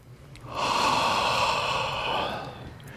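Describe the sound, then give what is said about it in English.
A person draws one big, deep breath: a long, loud, airy rush that swells quickly, holds steady, then tapers off, with no talking. “Big breath.”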